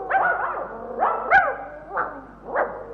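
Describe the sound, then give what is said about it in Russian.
Dogs being teased bark in a series of sharp, mid-pitched barks and yelps with short gaps between them, a few in quick succession, heard alone without voices. “На что вы собак дразните?”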